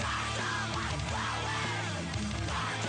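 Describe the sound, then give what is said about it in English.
Throaty gargling of a mouthful of honey, a loud, continuous, bubbling and gurgling voiced sound that holds steady for about three seconds. “Let me gargle my honey, my fluid real quick.”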